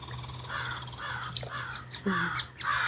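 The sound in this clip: Crows caw at sunrise in a run of several harsh, raspy calls, each a short grating burst, repeated at uneven intervals over a steady low hum, with no voices.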